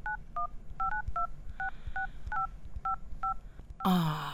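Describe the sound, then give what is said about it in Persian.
Keypad tones of a phone number being dialed on a mobile phone: a quick series of short, clean two-tone beeps at an uneven rhythm, followed by a louder burst of sound at the very end. “باش که من شماره شه بگیرم.”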